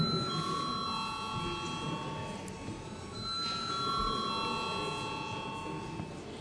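An electric bell rings in a parliament chamber before a vote, a sustained, fairly faint metallic ringing with a brief break about halfway through.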